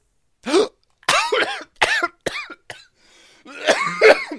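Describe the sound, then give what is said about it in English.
Coughing after choking on saliva: several harsh, voiced coughs in quick succession, then a longer, louder, strained bout of hacking at the end. “I went to go breathe, and spit got in the way.”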